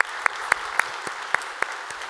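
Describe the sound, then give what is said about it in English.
Faint audience applause welcoming people into a study session at a campus gathering, heard as a steady, evenly spaced rhythm of claps over a low background hush. “So here at North Garnett, if you would, put your hands together, welcome them into our time of study here today.”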